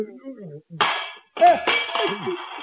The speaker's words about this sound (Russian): Ничего страшного, друзья мои, разбился стакан, невелика потеря.